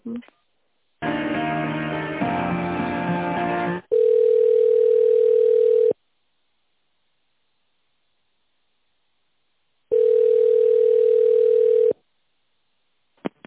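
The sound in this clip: Telephone line tones play during a call transfer: a few seconds of tonal, music-like sound, then two long, steady ringback tones of about two seconds each, separated by silence.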